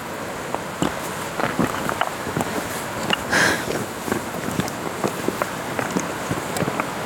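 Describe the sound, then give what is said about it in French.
Footsteps walk over clay ground in a steady series of many soft, evenly spaced thuds over a constant noisy background. “Marcher, marcher, marcher, marcher, marcher, marcher, marcher.”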